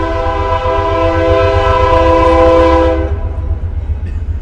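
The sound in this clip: An Amtrak train horn blares as a sustained, steady chord for about three seconds over the continuous low rumble of the passing train. The rumble keeps rolling loudly after the horn cuts off.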